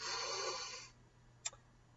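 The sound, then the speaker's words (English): A deep breath in during a guided breathing exercise: a soft, airy inhale lasting about a second that fades away into quiet. “Here we go. Let's take a deep breath in.”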